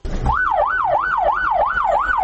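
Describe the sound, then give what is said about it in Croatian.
An emergency vehicle siren sounds at the start of a first-aid rescue exercise, a loud, steady wail that rises and falls in quick, regular cycles over continuous background noise. “Policijske, vatrogasne i sirene medicinskih ekipa hitne pomoći označile su početak uspješno provedene akcije spašavanja”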